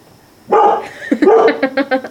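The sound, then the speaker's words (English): A pet dog barking and yipping after a short quiet moment, with a quick run of loud, high, sharp barks and whiny tones. “That's our dog, Buddy.”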